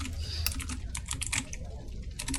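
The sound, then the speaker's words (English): Rapid typing on a computer keyboard: many quick, uneven clicks and taps in a continuous run. “Excuse the typing.”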